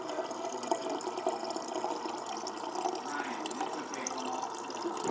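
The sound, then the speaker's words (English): Water runs in a restroom, a faint, steady trickling and splashing hiss that continues without clear breaks. “Ladies and gentlemen, fresh spring water.”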